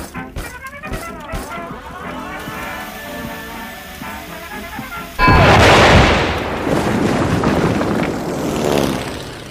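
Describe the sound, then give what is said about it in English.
Artillery fire and aircraft effects in a battle against fighter planes and anti-aircraft guns: quieter tonal sounds give way about halfway through to a sudden loud blast, followed by a sustained, dense, noisy roar. “And now the artillery!”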